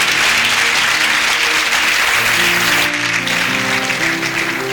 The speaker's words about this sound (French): acclame Dieu pour les enfants préférés de Dieu.